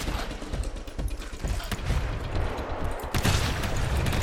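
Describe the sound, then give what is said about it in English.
Gunfire in the video game GTFO: sharp, percussive shot bursts over rattling mechanical noise, with a louder burst near the end. “Aw, oh, crap, I shot my gun.”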